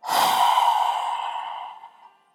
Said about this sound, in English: sound for as long as you can on that exhale. So it's going to sound something like this. Inhale, exhale.